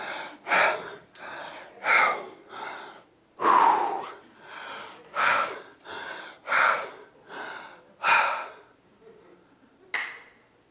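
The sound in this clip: A person breathes heavily while catching their breath: many loud, rasping, gasping inhales and exhales in a steady rhythm, then a brief lull and one last sharp breath, with no talk.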